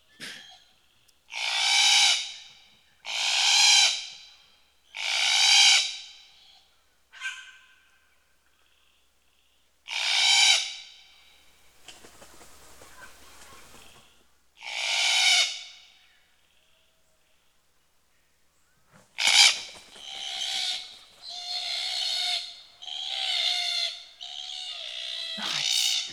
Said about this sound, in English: And this is what that celebration of leaving the nest sounds like.